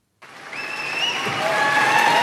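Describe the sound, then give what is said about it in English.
Applause from a crowd outside the Prime Minister's residence in Downing Street as he steps out, a steady wash of clapping that swells and holds at full strength, with a few thin whistling tones on top. “Sir Keir Starmer emerged from his residence at 10 Downing Street to applause.”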